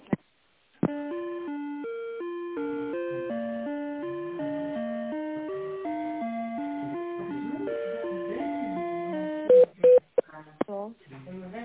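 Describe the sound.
A telephone being dialed again after a call dropped: a long run of stepped electronic tones at a steady level, ending in a few short, separate beeps.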